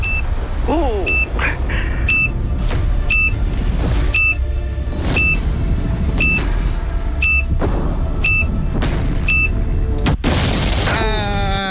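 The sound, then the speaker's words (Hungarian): Bomb explosion effect from a game-show countdown: a steady series of regular high beeps over a busy, noisy background, ending in one loud, sudden boom followed by warbling tones. “felrobbant a bomba”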